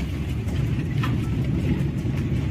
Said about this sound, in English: I'm driving past him again. Just turned around.